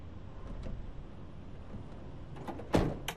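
A van door shuts as someone climbs into the van: a single heavy thud near the end, preceded by faint movement and handling noise.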